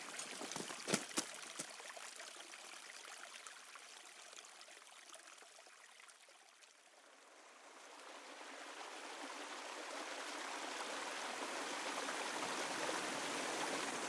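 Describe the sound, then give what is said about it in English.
A mountain beck flows through a ravine near Grasmere, beneath a holly bush, as a broad, steady watery hiss. It starts faint with a few sharp clicks, dips, then swells louder and fuller. “Well, we've managed to come down into a little ravine, hence the noise of the beck, very imminent, because we're right beside the beck, underneath a holly bush”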